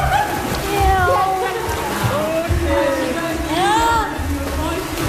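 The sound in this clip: Water sloshes and splashes as people get into a swimming pool, with voices talking over the steady lapping.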